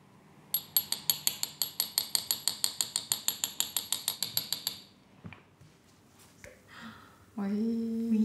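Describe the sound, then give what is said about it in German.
A jeweller adjusts a ring's setting to hold a peridot stone, producing a long, rapid, evenly spaced run of sharp metallic ratchet-like clicks, then a few scattered clicks and taps before a voice begins at the end. “der Peridot, fehlt ihm noch. Der Stein kann auch kaputt gehen bei dieser Aktion hier. Das Anpassen der Fassung ist der allerletzte Schritt.”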